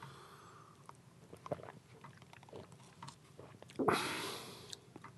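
Someone bites into a guava and chews, quietly and closely. Soft mouth sounds lead up to one crisp, crunchy bite near the end, followed by fading chewing.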